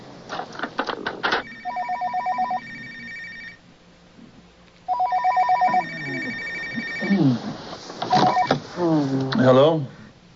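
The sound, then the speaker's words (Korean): A telephone rings with a late-night call from England: two bursts of loud, trilling electronic ringing separated by a pause, followed by people talking. “it's the telephone. Come on. It sounds like overseas.”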